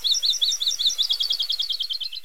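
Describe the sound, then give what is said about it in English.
An akeke'e, a Hawaiian forest bird, sings a rapid run of many high, thin, chirping notes in an even rhythm, forming a continuous trill, heard alone with no voices. “Most likely because there are now fewer akeke'e that the young birds can learn their song from.”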